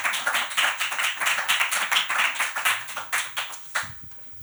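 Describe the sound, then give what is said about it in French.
Applause after a spoken segment on a show: many crisp claps in a fairly even, almost rhythmic pulse. The claps stay moderately loud, then thin out and stop near the end. “Je vous prie d'applaudir Philo pour sa chronique.”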